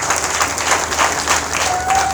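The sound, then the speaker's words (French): An audience applauds the author at a book presentation, with dense, steady clapping that holds at an even, loud level from start to finish. “Applaudissons encore pour elle.”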